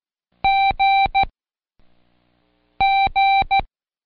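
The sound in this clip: Electronic beeps sound out a code, like telephone keypad tones: two crisp groups of three short, bright beeps separated by a pause with a faint low rustle between them, heard without any speech.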